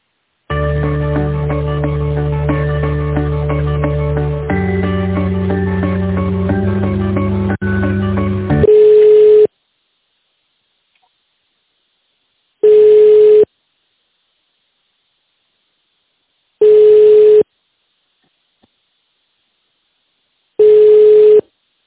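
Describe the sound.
Telephone tones play while a call is transferred: about eight seconds of stepping multi-note tones, then four long, steady ringback beeps separated by silence.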